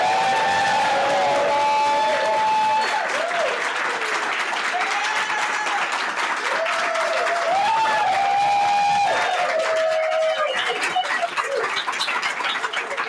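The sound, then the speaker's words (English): A large studio audience gives a standing ovation at a live show in a Las Vegas Marriott: dense, sustained applause fills the whole clip at a steady, loud level with no spoken words. “That is our insanely large studio audience that just gave us a huge standing ovation.”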